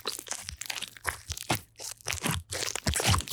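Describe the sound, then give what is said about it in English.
Slime being stretched, filled with air and squeezed out, producing many crisp crackling and popping crunches. They come in irregular bursts separated by brief pauses, with no voices. “the trick is filling the slime with air and then squeezing it out. So, you know, first you've got to do some stretching”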